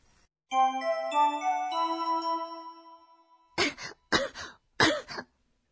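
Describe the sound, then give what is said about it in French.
A person with a cold coughs three times in quick succession after a bright, chiming melody fades out. “どうしましたか? 咳が出ます。”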